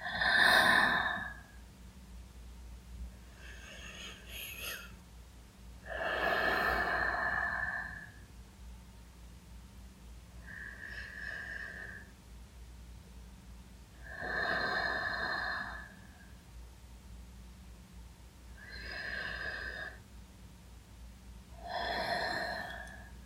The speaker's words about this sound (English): Breathe in, breathe out.